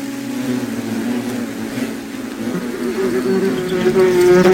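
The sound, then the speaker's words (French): Flies buzzing inside an apartment: a steady, droning hum that holds throughout and grows slightly louder toward the end, with no voices. “Depuis que je suis devenu animateur de radio, il y a beaucoup plus de mouches dans mon appartement.”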